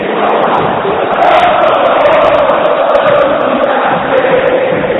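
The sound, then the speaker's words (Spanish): A football crowd roars at River Plate's Monumental stadium, a dense, loud and unbroken wall of massed voices that holds steady for the whole stretch. “Escucha. Escucha el Monumental. Sentite en la cancha de River.”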